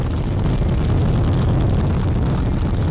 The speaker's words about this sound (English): Listen to that rocket. How fun was that? NASA's new moon rocket has blasted off its debut flight.